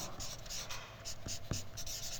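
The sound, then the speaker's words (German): A pen scratches across sheets of paper while someone draws a diagram, giving a steady, dry scratching with small pauses and a couple of sharper tapping strokes. “Ich möchte das kurz mal aufmalen, damit du es mal siehst, da entsteht eine neue Dynamik. Haben wir genug Blätter? Ja, ich kann noch einiges malen.”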